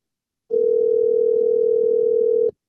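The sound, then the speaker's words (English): Telephone ringback tone of an outgoing call waiting to be answered: a single steady, even tone lasting about two seconds, starting and stopping abruptly, heard alone. “We're calling my buddy Josh. Let's see if he answers this week.”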